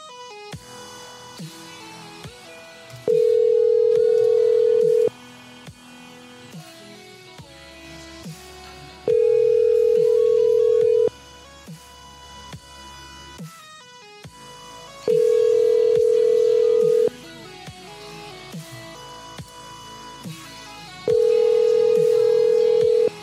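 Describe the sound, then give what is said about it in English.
A telephone rings out while calling someone back after voicemails: four long, steady ringback tones at even intervals, each lasting about two seconds, with quieter sounds in the gaps between. “We have a few voicemails and I'm calling him back.”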